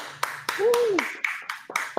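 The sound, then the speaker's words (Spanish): Applause for a guest: slow, evenly spaced claps, about eight in two seconds, sounding sparse and fairly soft, with a brief vocal sound rising and falling early on. “un aplauso para ti.”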